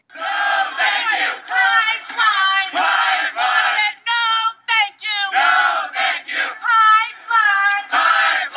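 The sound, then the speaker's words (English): More than a hundred activists protesting the Keystone XL pipeline chant together in unison, their voices rising and breaking off in short rhythmic bursts separated by brief pauses. “These are the sounds of over 100 peaceful activists protesting the Keystone XL pipeline last spring.”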